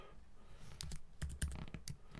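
Quiet, irregular clicking of a computer keyboard as someone types a message in a web chat, with a few light, rapid keystrokes in small bursts.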